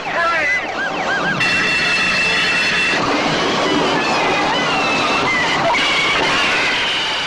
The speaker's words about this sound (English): And for the super train to come to a stop, creating an even bigger mess.